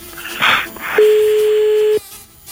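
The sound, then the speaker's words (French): Telephone call being placed: a short burst of line noise, then one steady electronic ringing tone that holds for about a second before cutting off. “Pierre, on y va, c'est parti, on appelle.”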